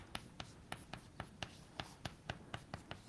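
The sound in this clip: Someone writing an equation during a lecture on intersecting straight lines: a steady series of short, sharp strokes at a fairly even pace, quiet and with no talk.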